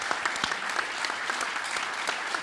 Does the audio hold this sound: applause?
yes